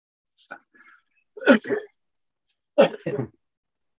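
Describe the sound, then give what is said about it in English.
Coughing during a meeting: two short rough bursts, each made of a pair of quick coughs or throat clears, with a few faint sounds before them. “I coughed my way for approval.”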